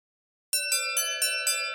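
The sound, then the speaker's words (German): An electronic bell rings in five quick, evenly spaced bright pulses over a sustained ringing tone, chime-like and metallic, starting abruptly after a short silence. “Die elektronische Glocke läutete erneut”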